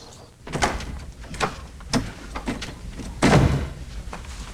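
A garden gate is pulled shut with a few knocking thuds, then a louder clattering bang near the end. No voices are heard.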